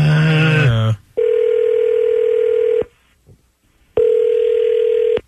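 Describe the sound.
An outgoing telephone call is dialed: a short run of dialing tones, then two long, steady ringback tones of equal length separated by a silent pause, loud and with no voices.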